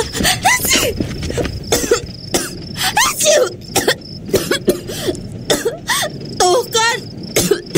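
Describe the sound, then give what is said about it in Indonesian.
A person with a cough and flu coughs many times in harsh, irregular bursts. The coughs are mixed with throat clearing and strained, voiced rasps, loud and close with short pauses between them. “Aku sekarang ada batuknya.”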